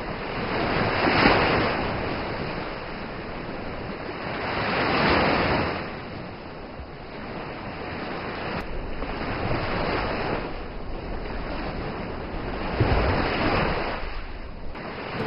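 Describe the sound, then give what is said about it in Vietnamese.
Heavy sea waves crash hard against the shore as the water rises, producing a broad roaring wash that swells and fades in a few loud surges, with wind noise throughout. “Chợt vang lên tiếng sóng đánh mạnh vào bờ.”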